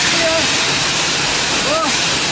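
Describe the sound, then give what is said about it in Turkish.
Pressurized water spraying at a car wash as people cool off under it in the heat, a loud, steady, unbroken hissing rush with faint voices underneath. “Sıcaktan bunalanlar iş yoğunluğundan denize gidemeyince oto yıkamacıya sığındı. Tazyikli suyun altına girerek serinledi.”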